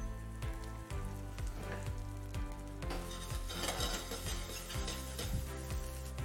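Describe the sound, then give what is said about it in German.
Sizzling of cherry tomatoes, Pachino or datterini, frying in oil in a pan. A continuous hiss runs under many regular stirring strokes that click and scrape at a steady rhythm. “Und dann wir nehmen Pomodorini Pacchino oder Datterini. Alles in Öl.”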